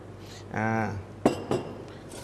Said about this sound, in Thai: ข่านะครับข่าแก่อีก2ช้อนโต๊ะนะครับแล้วก็ตำให้เข้ากันครับในการตำนะครับวันนี้เราเลือกใช้เป็นครกหินเพราะครกหินเนี่ยมีน้ำหนักที่ดี